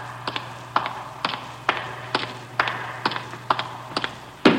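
An elevator running in a city hall: a steady low hum under a regular series of sharp clicks about twice a second, ending in a heavier, louder knock.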